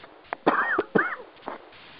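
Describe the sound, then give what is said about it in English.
Two short, harsh coughs from a man come close together, with a fainter throat sound just before them and another just after, all quiet and alone. “Excuse me, I coughed there.”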